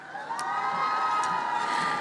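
An audience applauds and cheers at a flag-lowering ceremony. A continuous, even roar of crowd cheering and clapping lasts throughout, with scattered higher shouts.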